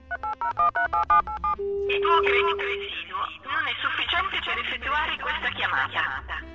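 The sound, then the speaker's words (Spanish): Telephone keypad tones as a number is dialed, a rapid run of about eight short, even beeps, followed by a sustained steady tone and then voices talking over a busy background. “Vamos a volverla a marcar aquí”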